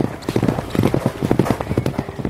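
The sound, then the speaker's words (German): Racehorses gallop on a racetrack as they come into the home straight: a rapid, steady drumming of many hoofbeats, loud and continuous throughout. “So kommen die Pferde jetzt in die Zielgerade hinein”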